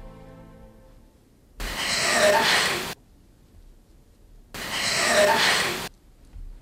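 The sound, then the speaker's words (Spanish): Heavy, labored breathing in an alleged paranormal recording: two long, harsh, raspy breaths, each about a second, separated by near silence. “Seccionada la psicofonía, escuchamos de nuevo esa respiración que, por cierto, parece es que alguien que está, no sé, respirando muy mal.”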